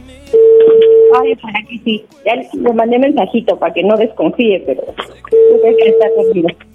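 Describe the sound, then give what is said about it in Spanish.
Telephone line tones from a call placed early in the morning to a listener in Querétaro: a steady, even tone sounds for about a second, voices talk over the line, then a second matching tone sounds near the end. “¿quién está marcando tan temprano?”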